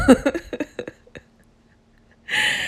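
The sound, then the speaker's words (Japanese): A person has a coughing fit after barely breathing in during the morning. Several rapid, harsh coughs are followed by a few weaker ones as the fit trails off, then a long, loud breathy gasp at the end. “ちょっと息する吸うだけでもむせるもうダメ”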